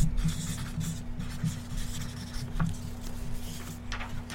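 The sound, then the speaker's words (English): Pen scratching as a black pen writes on black paper: continuous scratchy, rubbing strokes with brief pauses between them, over a low steady hum. “Oh, how are you going to write on black with black?”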